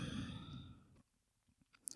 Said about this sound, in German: Und atme nochmal ein und aus